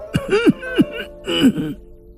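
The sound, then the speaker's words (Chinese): An old servant coughs several times: a few gruff, voiced coughs with a throaty, rasping edge, loud and close together, then trailing off. “文七十四吭吭地咳嗽了几声”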